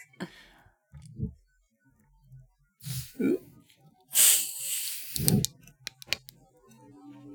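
Drink cans are cracked open with faint pops and short fizzing hisses amid quiet breathing and rustling.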